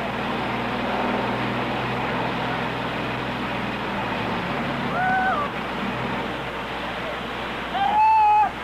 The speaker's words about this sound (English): I think perhaps the best thing we could do is just hang this mic over and pick up the grind of that generator so that we'll be sure and pick it up.